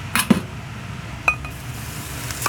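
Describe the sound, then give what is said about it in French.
Light ceramic clinks as bowls are taken out and set down while rice noodles are served; a few sharp, separate knocks are spaced apart over a low, steady background hum. “Et après, vous sortez les bols.”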